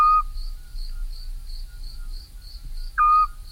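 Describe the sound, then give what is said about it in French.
A scops owl calls at night: two short, mellow whistled notes, one at the start and one near the end, over steady, rhythmic cricket chirping that pulses throughout. “ça, c'est un petit rapace qu'on ne verra jamais, parce que c'est un petit, le petit duc scops”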